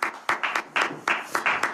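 Audience clapping: a handful of distinct, sharp claps in an uneven rhythm, fairly quiet, with short gaps between them.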